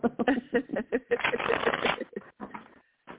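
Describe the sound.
A deck of cards being shuffled for a card reading: quick fluttering riffles that run together into a dense, rapid burst, then trail off into a few scattered snaps.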